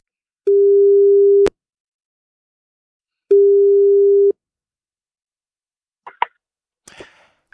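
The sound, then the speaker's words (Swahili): Ringback tone while a phone call is being placed: two steady, mid-pitched tones, each about a second long and separated by a pause, followed by a couple of sharp clicks and a brief crackle of line noise. “Okay, weka simu karibu na kupigia.”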